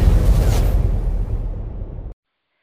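An explosion sound effect: a loud, broad, rumbling boom with a whooshing edge that slowly fades over about two seconds, then cuts off abruptly into silence.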